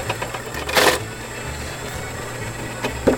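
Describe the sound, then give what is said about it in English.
Apple grinder grinding apples for cider pressing, giving a continuous mechanical whir and rattle with a brief, louder grinding burst early on and small clatters near the end. “All right, you want to start grinding? Yeah. Well, these are looking good.”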